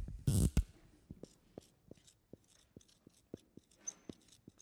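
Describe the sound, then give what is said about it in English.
Someone writes on a board with a quick, steady run of short, faint tapping strokes. A louder scraping burst comes near the start. “Let me write this up here.”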